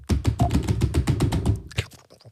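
Typing an e-mail on a computer keyboard: a fast, steady run of many clicking keystrokes, followed by a few scattered, quieter taps.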